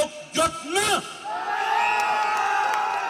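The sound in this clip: A crowd cheers at a political demonstration. A couple of loud shouted voices at the start give way to a sustained, swelling roar of cheering and whooping from many people.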